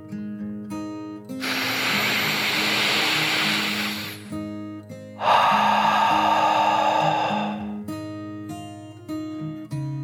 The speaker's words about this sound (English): Another deep dragon breath, in and out.